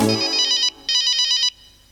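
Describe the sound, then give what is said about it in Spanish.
A telephone ringing in two loud, bright electronic trilling bursts, each about two-thirds of a second long with a short pause between them, and no voices. “¿Qué es? El teléfono sonó.”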